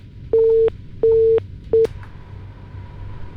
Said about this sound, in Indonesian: Tadi sempat terputus telepon yang sudah masuk dan coba saya akan sambungkan kembali.